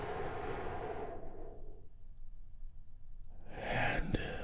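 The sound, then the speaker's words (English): A deep breath released during a guided breathing exercise: soft, airy rushes of breath at the start and end, separated by a stretch of near silence, faint throughout. “let's take a big, deep, healing breath. All together, here we go, and”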